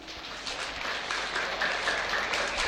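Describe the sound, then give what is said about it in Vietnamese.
An audience at a Buddhist audience gathering applauds an artist with dense, continuous clapping that holds a fairly even level throughout. “Xin quý vị nhiệt liệt hoan nghênh một lần nữa.”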